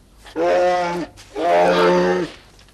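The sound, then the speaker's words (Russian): A bear in an animated cartoon roars twice, climbing a ladder: two long, loud, growling roars with a short pause between them and no other sound. “Медведь на лестнице.”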